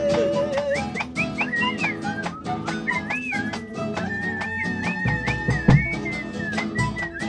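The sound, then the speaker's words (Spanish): People whistle a melody of high, clear sustained and gliding notes over an instrumental backing with a steady percussive beat. “no nos dejan cantar al menos, vamos todos a silbar.”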